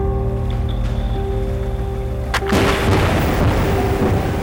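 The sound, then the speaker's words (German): A seismic air gun fires underwater during exploration for mineral resources: one sharp, loud boom midway cuts through a steady low hum and leaves a dense, rumbling wash of noise. “Das ist eine Schallkanone. Mit bis zu 260 Dezibel ist sie eines der lautesten menschengemachten Geräusche. Unternehmen nutzen sie auf der Suche nach Bodenschätzen.”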